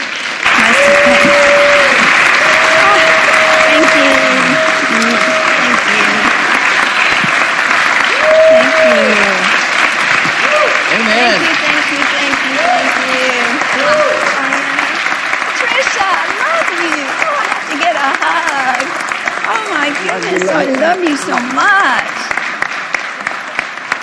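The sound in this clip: Sustained audience applause welcoming a speaker to the stage, dense steady clapping that lasts throughout, with voices calling out over it.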